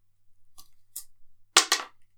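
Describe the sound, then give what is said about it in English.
A six-sided die rolled during a tabletop game: a couple of faint, light clicks, then a louder burst of sharp clattering knocks as it lands and settles. “Did you want to roll the D6 or shall I?”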